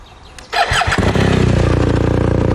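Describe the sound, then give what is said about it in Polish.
A motorcycle engine catches and starts, then settles into a deep, bass-heavy idle. The low throb is loud and steady, with an even, rapid pulsing rhythm. “a jak taki motocykl brzmi, bo to też dla mnie istotne. W dobrym tonie byłoby, żeby on był taki słyszalny. Taki basowy, czy tenorowy, powiedz? Basowy. No to proszę.”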